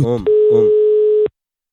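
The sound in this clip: A telephone dial tone sounds as a call is placed, one steady mid-pitched tone held for about a second, with short voice-like sounds just before and over its start.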